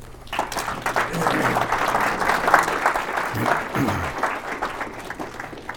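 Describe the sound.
An audience applauds to welcome a guest at a live session, a steady wash of many hands clapping for several seconds that swells slightly in the middle, with a voice faintly audible beneath it.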